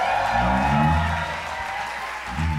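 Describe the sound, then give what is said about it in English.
Berklee concert audience at the Milestones Concert cheering and applauding, a dense, loud, steady wash of clapping and cheers that sustains throughout, dipping slightly midway before swelling again at the end. “Berklee, make some noise up in here, y'all.”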